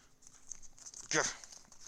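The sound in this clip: A paper envelope is torn open in one quick, crisp rip that stands out clearly over a quiet background.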